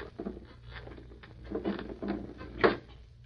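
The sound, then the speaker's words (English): A side window of a bank being pried open by three men, a radio drama sound effect: faint scraping and creaking that swells midway, with a sharper knock near the end. “Three men coming around from the back. They're going to pry open that side window.”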